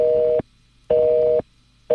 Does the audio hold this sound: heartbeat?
no